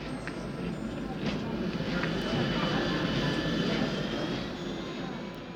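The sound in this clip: Aircraft engines at an airport give a steady, broad roar that holds at an even, moderate level throughout with no distinct events.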